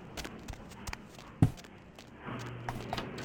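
Footsteps heading down stairs in a video game, a steady run of soft footfalls with one sharper thump near the middle and a low hum rising toward the end.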